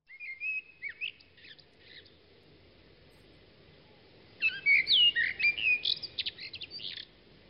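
Birdsong in a residential courtyard: a short burst of high chirps and whistles, a quiet stretch, then a louder, denser run of bright chirping notes, over a faint low background rumble.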